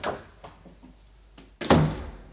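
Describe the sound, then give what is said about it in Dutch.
Knuckles rap on the glass door of a small office, a few sharp knocks spaced apart, with the last blows the loudest and ringing briefly afterward. “Met zijn toestel in de hand klopte hij tegen de glazen deur van het kantoortje waar de directeur zat.”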